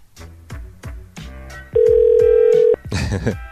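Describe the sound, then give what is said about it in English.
Ringback tone on an outgoing telephone call: after several rhythmic musical thumps, one steady, loud tone holds for about a second, then breaks into a short burst of noise. “I'm calling Lil Cricket.”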